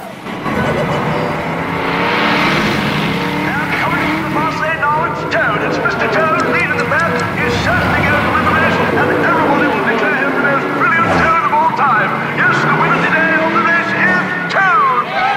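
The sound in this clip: A car speeding along, its engine racing loudly with pitch that wavers up and down and a sharp swooping drop near the end, the noise continuous throughout.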